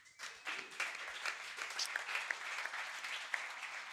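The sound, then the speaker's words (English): Audience applause for a panel at a Web3 and creator-economy event, a dense, steady patter of many hands that keeps going for the whole stretch, with a few sharper claps standing out. “All right. Well, let's give it up to this great panel.”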